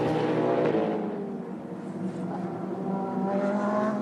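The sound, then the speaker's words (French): A race car engine roars on track during an overtake of the number 83 Ferrari, a loud, buzzing harmonic drone that eases a little in the middle and then swells again. “Will Stevens à l'attaque et qui passe la Ferrari numéro 83, qui commence tout simplement sa remontada”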